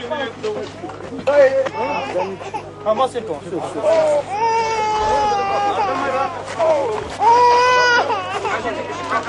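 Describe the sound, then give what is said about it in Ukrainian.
An infant cries with rising and falling wails during the release of a woman holding her newborn, heard over a dense crowd hubbub with shouting and talking voices. “Ця жінка з немовлям, яку ми зараз якраз дитину чуємо”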